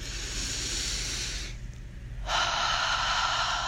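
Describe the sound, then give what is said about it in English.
A deep inhale during a breathing exercise, heard as a steady, loud, airy rush of breath. It dips briefly midway, then comes back stronger. No one speaks. “I'm giving you some extra time to breathe right now, so take a big inhale in.”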